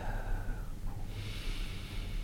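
A single soft breath drawn in during a breath-counting exercise: a faint, airy hiss of inhaled air in the second half, over low background rumble.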